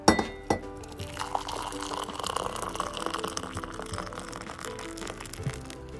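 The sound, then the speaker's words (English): Nescafe coffee poured into a mug decorated with red and white snowballs. A couple of sharp clinks open the sound, then a steady trickling pour continues to the end, with no talk. “we wake up every morning to a delicious, delectable cup of Nescafe. Je t'aime beaucoup le café, je t'aime beaucoup Nescafe. And this is the sound of heaven.”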